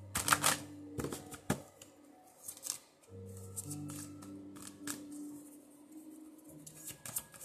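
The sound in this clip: A card is drawn from an angel card deck: quiet papery flicks and a few sharp snapping clicks over a low, steady hum.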